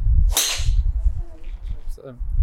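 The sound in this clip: A golf driver strikes a ball in long driving in poor conditions, giving one sharp, bright crack with a brief swishing tail. A voice speaks softly afterward.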